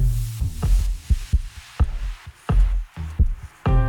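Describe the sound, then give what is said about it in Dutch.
Human heartbeat, a steady series of deep, muffled low thumps repeating at a regular pace, soft and booming with no voices. “Dit is de hartslag van Roderick Velo.”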